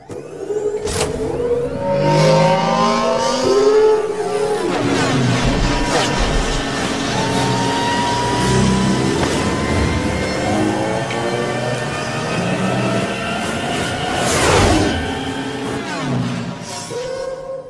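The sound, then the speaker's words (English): A film sound effect of a speeder bike flying past: a loud, continuous whining engine roar with layered tones that shift in pitch, with short bursts near the start and a stronger surge toward the end. “That is the speeder bike, Sun Endor.”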